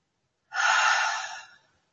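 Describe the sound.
A single slow exhale during a relaxation breathing exercise: a soft, airy breath that swells quickly, holds for about a second, then tapers off, heard alone.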